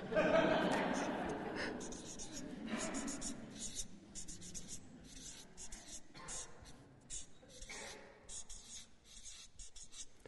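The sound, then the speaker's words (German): Marker scratching and squeaking across a flipchart as words are written, with many short strokes in uneven bursts throughout and low murmured speech underneath at the start. “So, in meiner Flipchart-Schrift noch ein bisschen arbeiten, merke ich gerade. Sonst noch? Ich schreibe zuerst im Moment leben.”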